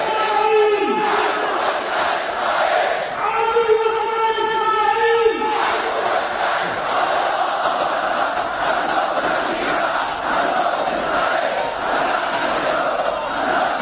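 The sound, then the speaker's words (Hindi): Crowd chanting slogans in support of Palestine at a large Quds Day protest in Sanaa, Yemen: loud, tuneful unison chant phrases rise and fall near the start, then give way to a continuous dense roar of many voices. “Yemen की राजधानी सना में बहुत बड़े पैमाने पर प्रदर्शन हुए और पूरा वातावरण फिलिस्तीन के पक्ष में लगाए जाने वाले नारों की आवाजों से गूंज उठा।”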